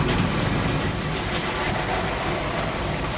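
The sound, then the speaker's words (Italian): A steady, broad rumble of a train, heard as continuous noise with no distinct clanks or horn, holding an even level throughout. “Quello che sentite in sottofondo ovviamente è un treno”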